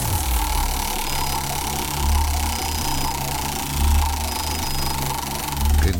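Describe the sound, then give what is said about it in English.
A large wheel being spun gives a steady whirring rumble, with a few low swelling thumps recurring about every two seconds. “Grab hold of that way back wheel. Give her a good spin.”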